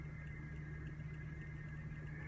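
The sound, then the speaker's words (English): Faint, steady hum inside a car, a low engine drone with a thin constant tone above it, unbroken and with no voices. “Right now, this is just me in my car sharing some knowledge with you guys.”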